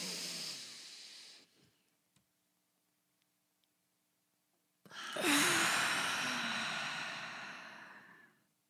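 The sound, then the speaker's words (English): Deep breath drawn in with a breathy rush, then a few seconds of near-silence with faint ticks while it is held, followed by a long, loud exhale that slowly fades. “And then we're going to do a deep inhale and hold it at the top.”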